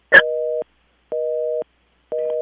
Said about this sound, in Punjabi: ਉਹਨਾਂ ਦੀ ਲਾਈਨ ਜਿਹੜੀ ਹੈ ਡਿਸਕਨੈਕਟ ਹੋ ਗਈ